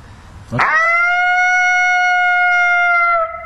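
A person imitates a lonesome howl. A single loud, clear, tonal call sweeps sharply up into a long, steady, sustained note and holds for nearly three seconds before cutting off.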